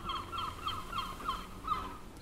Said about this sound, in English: most days I wake up to the sound of seagulls. And there were some seagulls right on cue.